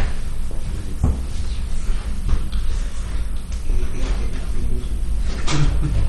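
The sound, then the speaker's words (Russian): A door to the flower room is pushed shut, giving a few dull knocks and clunks over a steady background hiss. “Кто-то может закрыть дверь в цветочную комнату? Дует постоянно, слушаешь.”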